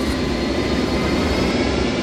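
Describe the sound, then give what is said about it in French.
A steady, loud engine roar accompanies the pretend start of a homemade rocket built by two children, a continuous broad rushing rumble with no breaks or change in level. “Alors voilà, on a construit une fusée. Avec mon petit frère. Là, je démarre la fusée.”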